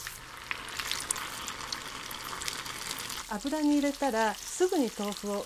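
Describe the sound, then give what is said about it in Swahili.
Tofu pieces fry in hot oil with a steady, even sizzle and crackle. Partway through, a person starts talking over the frying. “yake kipande kimoja baada ya kingine kisha ziweke mafutani. Ikiwa mafuta yatakuwa ya kutosha na yote yawe na kiwango sahihi cha nyuzi joto, unaweza kukaanga vipande vingi vya tofu kwa wakati mmoja.”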